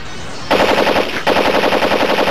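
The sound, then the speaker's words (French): Rapid automatic gunfire from an AK-47 rifle, loud and harsh, in two sustained bursts separated by a brief break, with no voices. “AK-47 tonitruant!”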